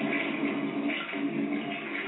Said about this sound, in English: that's what you do with shit. You flush it.